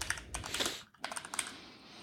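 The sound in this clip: Rapid clatter of keystrokes on a computer keyboard as a new password is typed at a Linux setup prompt: many quick, even taps with a brief lull near the middle, moderately loud and with no talk.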